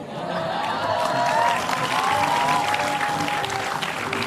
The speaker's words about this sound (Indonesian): Pakai tepuk tangan lagi.